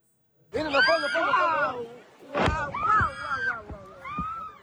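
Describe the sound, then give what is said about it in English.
Beachgoers near the coastal city of Nahariya, Israel, cry out and shout in alarm at a Hezbollah rocket, several raised, wavering voices overlapping in bursts, with a brief sharp noise between them. “And this is the moment when beachgoers in Israel witnessed a Hezbollah rocket near the coastal city of Nahariya.”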